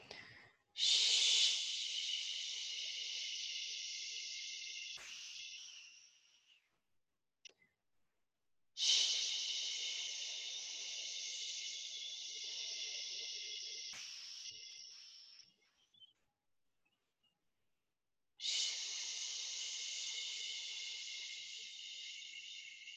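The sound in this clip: Three long shh exhalations during a breathing exercise, each a steady breathy hiss lasting several seconds, are separated by short silences.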